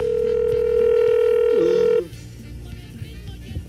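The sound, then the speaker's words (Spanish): A telephone dial tone signals an incoming call: a loud, steady tone holds for about two seconds, warbles briefly, then cuts off and leaves faint low background noise. “¿Tenemos llamada? ¿Llamada de quién?”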